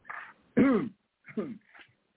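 A man clears his throat of phlegm in a few harsh, rasping bursts. The second burst is the loudest, and brief silences separate the bursts.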